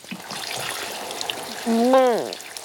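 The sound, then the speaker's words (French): Shower water runs at a swimming pool with a soft, steady hiss. A brief voiced whine rises and then falls near the end. “Avant d'entrer dans l'eau de la piscine, il faut se doucher.”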